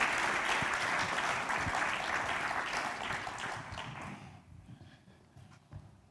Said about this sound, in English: Give him a big hand. Thank you.